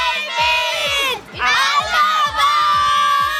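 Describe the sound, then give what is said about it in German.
A crowd of children shouts together in unison in two long, loud calls split by a brief dip, with steady low rhythmic thumps beneath the voices. “Rufen wir nochmal gemeinsam.”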